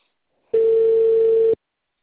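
A single steady ringback tone sounds on an outgoing phone call, one unbroken mid-pitched burst lasting about a second, then silence, with no voices.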